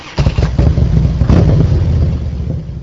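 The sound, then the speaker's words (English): A motorcycle engine revving: a deep, throaty rumble with a few surging bursts that stays loud and steady for nearly three seconds, with no talk over it. “The number of motorcycle deaths nationally is on a six-year upswing, and motorcycle fatalities in Wisconsin so far this year are about double last year's rate. So, this week, if you hear this sound,”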